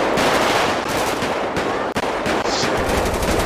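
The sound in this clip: Rapid carbine gunfire in a police roleplay video game, a dense, loud, continuous stream of shots with barely any gaps and one brief dip near the middle, with no voices over it.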